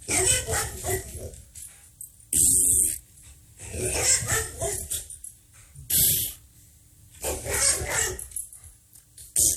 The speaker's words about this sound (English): Want another dog? You got it. Yep. And one more dog,